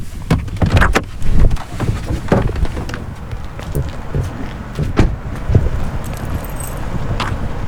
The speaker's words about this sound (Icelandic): Ég ætla núna að stíga út í bílnum og kynna mér aðstæðurnar aðeins betur.